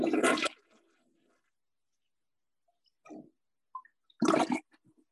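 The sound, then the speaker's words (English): Loud rushing bursts of a toilet flush come in two short surges separated by a long quiet gap, with a few faint small noises in between. “Did you hear that? The toilet flushing. Oh, okay. Yes. That was the toilet flushing.”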